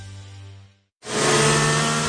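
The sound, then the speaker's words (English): A race car engine roars at a speedway race at a fairgrounds. It bursts in loud and sustained after a brief silence that follows a fading lower hum. “This Friday is the inaugural race of the Fix-It Forward Speedway at the Red River Valley Fairgrounds. Feel the excitement of fast cars,”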